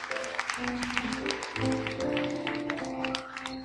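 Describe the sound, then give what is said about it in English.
An audience applauds at a church service after a prayer: a dense spatter of many claps mixed with sustained keyboard chords underneath. “Let's give him a hand.”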